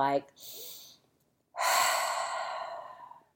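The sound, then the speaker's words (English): A deep, exaggerated, audible breath: a breathy intake followed by a long, loud, forceful exhale that fades slowly. “like deep, exaggerated, audible breath, and I remember my kids were little bitty”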